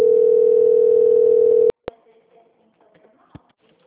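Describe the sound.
Telephone call transfer tone: a steady single-pitched tone holds for under two seconds, then cuts off with a click, leaving a few faint clicks and quiet line noise.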